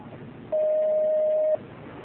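A telephone line tone plays as an incoming caller is connected to a call-in religious question program. The steady, single-pitched electronic tone lasts about a second over faint background hiss.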